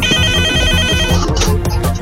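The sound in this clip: A telephone rings for an incoming call: a rapid, bright warbling trill over a steady rhythmic low beat. The ring fades after about a second while the beat carries on.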